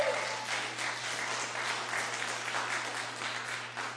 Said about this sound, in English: I don't think a guitar player has ever gotten applause like that before.